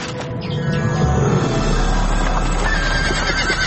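A horse neighing and hooves clip-clopping as it pulls a family's cart on a dark, foggy night: a whinny near the start, then steady hoofbeats over a continuous low rumble.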